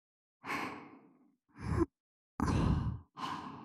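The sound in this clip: Soft blowing into an ear: four gentle, breathy puffs of air separated by short silences, close and intimate, with no talking.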